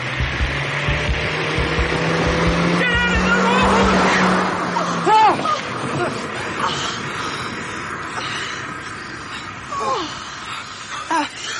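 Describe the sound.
A car drives straight at people on a narrow track, its engine a steady drone that swells and then eases off midway, followed by several sharp cries and gasping voices over lingering noise.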